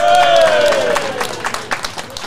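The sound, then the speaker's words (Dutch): Audience applause for the house band. A voice trails off on a falling tone, then a crowd breaks into sharp, scattered clapping that fills the second half. “Mag ik nog een applaus voor onze huisband?”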